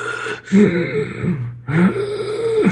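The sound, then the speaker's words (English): A voice imitates a man wheezing as he sits on a bed in a dark room, in a horror game. Two long, strained, raspy breaths with a groaning, throaty edge are separated by a short silence. “you see a figure sitting on a bed, and he's wheezing,”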